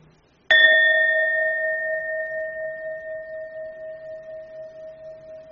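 A Buddhist temple bell struck once, its bright metallic tone ringing on and fading slowly with a gentle pulsing waver, with no voices.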